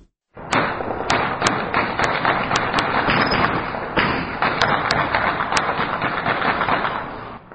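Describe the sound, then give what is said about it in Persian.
Light and heavy weapons fire at night in Sheberghan, Afghanistan, in a celebratory barrage. A dense, loud, unbroken volley of rapid cracks and thuds runs for several seconds, with sharper individual shots standing out before it fades. “این صداهای فیر اسلحه سبک و سنگین بود که شب گذشته پس از امضای توافقنامه بین دو دکتر محمد اشرف غنی و عبدالله عبدالله در شهر شبرغان صورت گرفت.”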